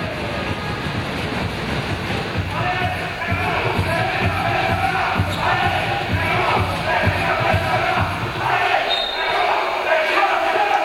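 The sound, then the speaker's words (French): Crowd noise fills an arena during a basketball game in which a big dunk is made. A loud, steady roar continues throughout, with repeated ball bounces running under it. “Mais attention, gros dunk là de la part de Saint-Quentin.”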